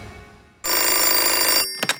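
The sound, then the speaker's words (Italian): A telephone bell rings in one loud trilling burst of about a second, followed by two brief, quieter pulses. “Eccolo qui al telefono.”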